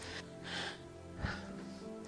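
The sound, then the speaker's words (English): A person breathes heavily and raspily after climbing stairs, with a few loud breaths over a low, steady hum. “I do apologise for breathing quite so heavily at you.”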